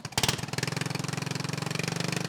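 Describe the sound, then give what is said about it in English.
A racing lawnmower engine runs with a rapid, even, chugging pulse. It is loud and steady throughout, after a brief stronger burst at the start. “For Calvert and the other racers, the lawnmower has always been an icon of rural life. These just blow your hair back a bit more.”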